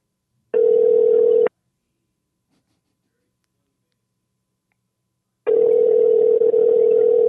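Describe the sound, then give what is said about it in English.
A steady telephone line tone heard while placing a call. It plays as two identical bursts of a low, even hum: about one second, then a long silence, then a longer stretch. “Let me just give him a call. See what's going on.”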